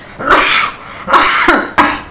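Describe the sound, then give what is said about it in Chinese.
Rough, throaty coughing from a person: a few harsh, noisy bursts in quick succession. They are loud and stand alone, with no talk. “不好意思啊，又咳啦。”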